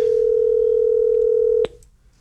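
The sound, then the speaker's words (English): A telephone tone heard while placing a call to a listener: one low, steady, unbroken tone held for about a second and a half, then cut off by a sharp click, followed by faint quiet. “I am going to call our very first texter who texted Wednesday.”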